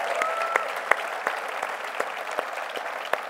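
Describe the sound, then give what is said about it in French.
An audience claps during a church service: many hands beat a steady rhythm of sharp claps under a general roar of applause. “Let's give God a hand clap louder.”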